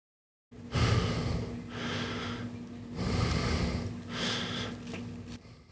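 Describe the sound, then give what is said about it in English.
A person breathes slowly into a microphone, a few long airy inhales and exhales in even succession, close and breathy, with no words. “I'm going to see if I get him to breathe into the microphone.”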